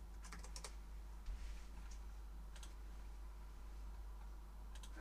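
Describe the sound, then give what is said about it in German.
Typing on a keyboard comes in a few short bursts of soft clicks separated by pauses, over a steady low hum. “Warte, ich schreibe das auf klar wie Kloßbrühe.”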